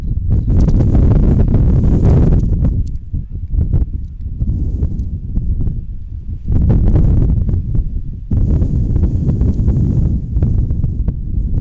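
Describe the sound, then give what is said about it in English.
Gusty wind buffets the microphone at an outdoor softball game, producing loud, low rumbling bursts that surge and ease in uneven waves. “The wind really blustering and blowing out.”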